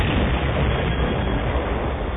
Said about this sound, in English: His port wing clipped the corner of the tower and sent the TIE into a corkscrew spin that ended in a fiery explosion deep in a canyon.